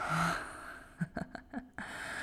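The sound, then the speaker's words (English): A small, soft gasp reacting to hair being gently pulled: a few short, breathy catches of breath cluster in the middle of an otherwise hushed, quiet stretch. “Oh, that little gasp. It's adorable.”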